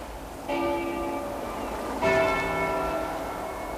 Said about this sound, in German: Hören Sie das? Glocken.